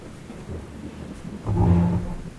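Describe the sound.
Low, rolling thunder from a night thunderstorm, a dull rumble that swells noticeably in the second half and lingers.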